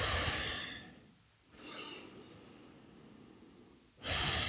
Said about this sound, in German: Tief ein- und ausatmen. Und dann leg mal beide Hände auf dein Herz. Und atme tief in den Herzraum ein und aus.